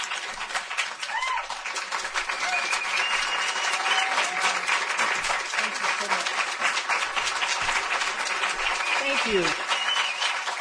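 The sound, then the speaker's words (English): Applause from an audience welcoming the First Lady of the United States: dense, steady clapping that holds at an even level for the whole stretch, with a few voices rising through it now and then. “Thank you all. Rest yourselves. You've been doing a lot of wonderful work. I don't want you to get tired giving me a round of applause.”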